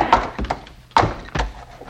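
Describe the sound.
A club striking a mule's head: several dull, heavy thuds in an uneven rhythm, each with a sharp onset and a short decay.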